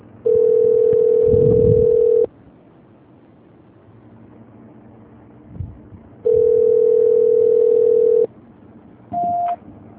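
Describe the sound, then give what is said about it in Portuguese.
Telephone ringback tone plays while a call transfer to São Paulo waits to be answered: two long, steady, mid-pitched beeps of about two seconds each, separated by a longer pause, then a brief higher beep at the end. “Transferência. Só depende de São Paulo atender.”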